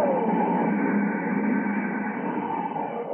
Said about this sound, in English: Stand by to raise ship. Blast off minus 5, 4, 3, 2, 1, zero!